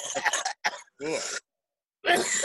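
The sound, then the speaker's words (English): Phlegmy coughing and throat clearing: a few harsh, raspy bursts separated by short silences, fairly loud and close, with no talk. “I prefer it if you cover your mouth even when you're alone. Like, it's kind of, that was a lot of phlegm coming into the screen.”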